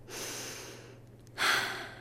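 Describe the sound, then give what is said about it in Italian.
A deep breath drawn by someone settling into a car's driver's seat for a driving lesson: two soft, airy breath sounds, the second louder and rougher after a short pause. “Fa un respiro profondo.”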